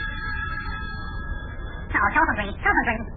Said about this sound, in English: telephone ring. Hey, isn't that somebody who sounds funny? There's only one way to find out. Answer the phone.